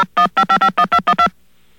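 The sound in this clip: Telephone keypad tones sound as a call is dialed on a phone system: eight loud, quick dual-tone beeps come in rapid, even succession, then silence.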